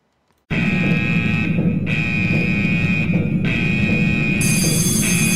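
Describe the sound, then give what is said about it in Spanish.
A loud, steady electronic alarm tone used as a spoiler-warning sound effect, with a bright, piercing pitch and buzzing overtones. It starts abruptly after a brief silence and holds continuously to the end. “Vamos a poner la alarma spoiler”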